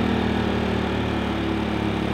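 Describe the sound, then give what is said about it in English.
A portable generator runs in economy mode, not being pushed, giving a steady, even engine drone with a low, unchanging hum. It plays alone, with no variation in level. “And you can hear the generator's in economy mode. It's not being pushed.”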